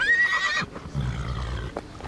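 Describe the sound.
A horse neighs once, a loud high-pitched whinny lasting about half a second, followed by lower, rougher noises and a few faint knocks.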